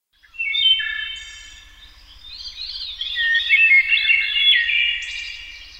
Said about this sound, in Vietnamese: Tiếng hót của bầy chim trên cây làm tôi cảm thấy vui vẻ lạ thường.